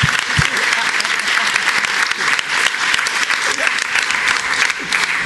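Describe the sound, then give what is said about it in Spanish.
An audience applauds, a dense, steady clatter of clapping that stays loud throughout, with voices faintly mixed in beneath it. “Para Sony, un aplauso para Sony.”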